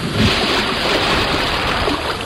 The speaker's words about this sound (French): Ils mettent la tête sous l'eau et plongent au fond de l'océan.